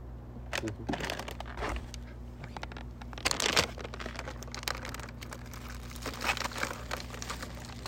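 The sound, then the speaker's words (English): Crinkly tearing and crumpling of a cookie package being ripped open by hand along its side, heard as a string of short rustling bursts with the loudest tear near the middle. “why are you tearing it open instead of using the peel thing? It didn't have one. Oh. He tore open the side.”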